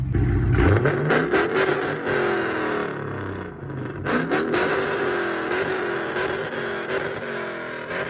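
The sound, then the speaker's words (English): A Scat Pack car with a straight-pipe exhaust revs loudly, its raw engine note climbing and falling through a few sharp throttle blips, with a rough, crackling rumble between them. “Today we got two Hellcats and two Scat Packs. So today we're gonna rev it and see which one sound better. So comment down below and let us know. We're gonna start off with this one, and this one's straight pipe.”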